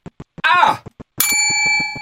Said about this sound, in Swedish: Har vi ingen plinga, Linda? Jag har ju glömt den i Göteborg. Jag får hämta min gamla plinga.